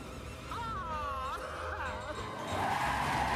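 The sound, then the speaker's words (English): Car tires squeal as the vehicle is steered sideways across a road, giving a loud, wavering high-pitched screech that bends up and down over a steady rush of engine and road noise that grows louder near the end. “Batman turns the Batmobile's wheels so they drive sideways across the road.”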